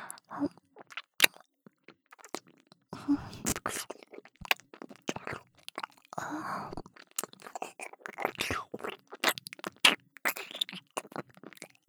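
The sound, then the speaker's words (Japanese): Crunchy, wet chewing and mouth sounds, as if nibbling on an earlobe: many irregular clicks, crunches and squishes in quick succession with short quiet gaps, soft and intimate. “お耳の周り、おいしいです。耳たぶもコリコリしてて、おいしい。”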